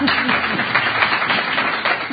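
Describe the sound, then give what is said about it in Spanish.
An audience applauds to welcome a guest at a gathering: dense, continuous clapping that holds at an even level, with a brief voice heard at the very start. “¿Le querían dar un aplauso? Le damos un aplauso.”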